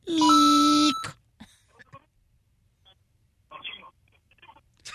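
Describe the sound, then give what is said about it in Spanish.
A voice imitates an answering machine beep with one loud, sustained, steady tone lasting about a second. A few quiet scattered sounds follow. “Esta es solamente una grabación. Deja tu mensaje. Deja tu mensaje después del tono.”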